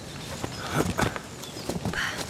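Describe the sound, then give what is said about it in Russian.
Horse hooves clip-clopping as two riders travel through a green forest and halt: a few irregular, moderately loud hoof-falls over a soft rustling background. “На лошадях едут Надя и Виктор. Останавливаются и слезают.”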